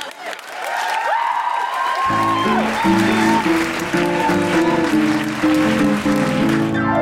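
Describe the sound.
An audience claps, cheers and whoops to welcome a speaker: the applause starts at once and stays loud and dense, and about two seconds in, music with distinct notes begins and continues under the clapping.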